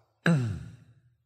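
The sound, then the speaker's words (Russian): A long breathy exhale with a soft voiced sigh during a guided breathing exercise. It starts strong and fades out gradually over about a second. “Теперь сделаем плавный глубокий вдох через нос. И длинный-длинный выдох до конца.”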